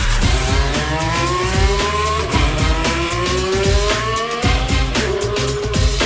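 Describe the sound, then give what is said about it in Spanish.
A Formula 1 race car engine screams loudly at high pitch, repeatedly climbing in pitch through gear changes with brief dips between, steady and continuous with no talk. “Pero también tenemos Fórmula 1.”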